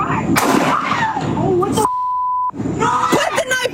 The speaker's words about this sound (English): when she reached for the knife again, she was shot a second time.